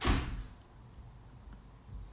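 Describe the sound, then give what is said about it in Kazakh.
A door slammed shut: one heavy, booming thud at the very start, fading into a quiet, low rumble with faint scattered knocks afterwards. “Есікті тарсылатпаңдаршы, балалар.”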